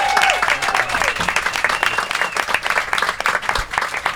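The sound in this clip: Loud, dense audience applause for a performer at a live music show in Jack Daniel's Room Number 7, steady clapping throughout with whistle-like cheers rising over it.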